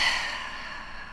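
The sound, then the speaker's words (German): A conscious, deep breath is let out as a soft, airy hiss that is strongest at the start and slowly tapers away over about a second, with no talking. “Bewussten tiefen Atemzug nehmen”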